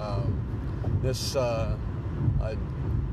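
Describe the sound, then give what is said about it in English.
Steady low engine and road rumble from a car being driven to work, continuous beneath a man talking throughout. “I'm actually driving into the place right now.”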